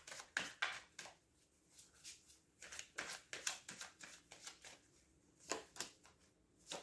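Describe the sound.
Tarot cards being shuffled and drawn during a reading: many soft, papery riffles and slaps come in quick uneven bursts with brief pauses between them, moderately loud and with no voice.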